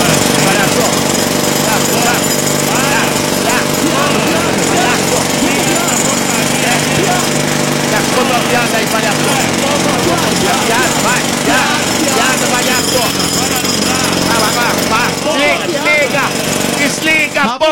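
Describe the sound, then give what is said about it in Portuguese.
A jackhammer's loud, continuous mechanical pounding and engine roar runs steadily throughout, with people talking over the din. “A britadeira.”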